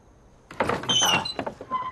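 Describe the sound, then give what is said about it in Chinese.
A door being opened, heard as an abrupt, creaking scrape that starts after a quiet moment and continues in a few uneven rattling bursts before tapering off. “陈伯，开门啊，陈伯。”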